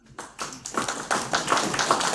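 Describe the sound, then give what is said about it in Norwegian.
Audience clapping, a dense patter of many hands that starts after a brief quiet moment and continues steadily at moderate loudness. “Vi kjører denne klapp, kom.”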